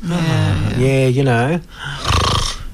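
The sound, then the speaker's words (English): A voice imitating snoring, as of someone asleep on a couch after a heavy lunch: drawn-out, wavering voiced tones, a brief pause, then a rougher, snorting breath, loud and close. “there's nothing that shows you more relaxed than when you're asleep on the couch and you're snoring.”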